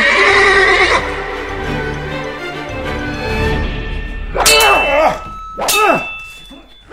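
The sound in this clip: A horse neighs and its hooves sound as a rider carrying a quiver, sword and bow mounts. A long whinny opens, hoof sounds follow, and two sharp, loud neighs come near the end.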